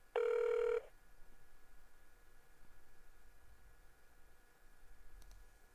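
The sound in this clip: A telephone ring as a call is placed to a guest: one loud burst of ringing lasting under a second, followed by a quiet hiss on the line.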